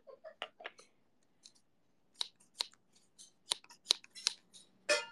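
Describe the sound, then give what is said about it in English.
Scissors snipping through hair: a string of sharp, crisp clicks in uneven bursts, some in quick pairs with short gaps between, the loudest snips coming toward the end. “I'm cutting your hair.”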